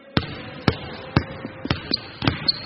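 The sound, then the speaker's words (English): Basketball dribbling, the ball bouncing on the floor in a steady run of loud, punchy thuds about every half second, with a few softer hits between them and no voices. “Now, finally, I want you to demonstrate some other things that happen in basketball. For example, dribbling. When you run and bounce the ball, that's dribbling.”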